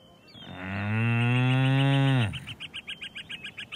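An ox lowing: one long, loud, deep moo lasting about two seconds, followed by a rapid run of many short, high bird chirps.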